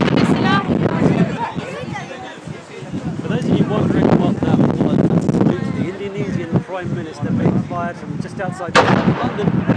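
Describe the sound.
Artillery booms from a ceremonial gun salute welcoming the Indonesian president to the UK. People talk throughout, with wind noise, and a sharp blast stands out near the end.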